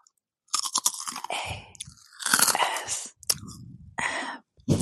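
Crunchy snack being chewed close up in an ASMR session: several loud, crackling bursts of bites and chewing, separated by short silences.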